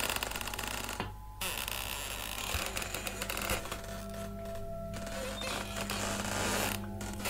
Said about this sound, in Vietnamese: bất ngờ cánh cửa được ghép bằng những nan tre bị gió thổi vào, cót ca cót két, từ từ mở ra. Âm thanh trong đêm nó rít lên